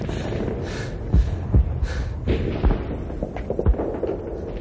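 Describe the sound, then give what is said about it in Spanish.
Several muffled gunshots in a World War II firefight from a radio drama, dull heavy thuds spaced irregularly over a constant low rumbling background. “Alguien dispara desde el otro lado.”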